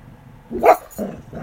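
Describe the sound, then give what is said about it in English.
A drowsy dog that has just woken from a nap gives a few short, low growly vocal bursts, fairly loud, with quiet between them. “Hey, what you growling about, dog?”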